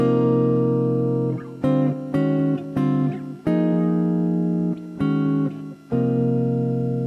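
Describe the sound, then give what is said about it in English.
A chord stacked in perfect fourths slides up and down by parallel planing, sounding as about eight sustained, bright chords separated by brief gaps, alone without talk. “Let's move a chord made up of perfect fourths. Let's move it with chord planing, just up and down, just going by sound.”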